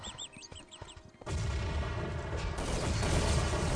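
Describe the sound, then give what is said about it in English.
Grenade explosions in a clan match of a multiplayer video game arrive as a loud, continuous roar of overlapping blasts. It follows a quieter opening of warbling high electronic tones. “Grenades from all directions here by both clans.”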